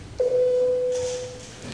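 An electronic bell calls members to a vote in parliament, sounding as one steady mid-pitched tone that holds for about a second and slowly fades over a low background murmur.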